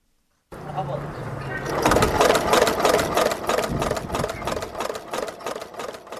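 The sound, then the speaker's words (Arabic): A leather sewing machine runs in a cobbler's workshop, its rapid, steady mechanical stitching rhythm growing louder after the first couple of seconds and continuing under a talking voice. “بين مكائن خياطة الجلود وطرق المسامير ليكون إسكافيا”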